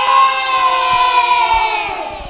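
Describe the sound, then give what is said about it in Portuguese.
A group of children shouts a long, loud cheer together at a school Children's Day celebration. Their voices hold steady, then slide down in pitch at the end. “Vamos mandar um grande abraço, um grande grito para todos os nossos ouvintes. Vamos lá, moçada, viva o Dia das Crianças!”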